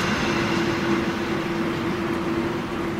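Train sound effect, a steady rumbling roar with a constant low hum running through it, unchanging throughout and with no voices.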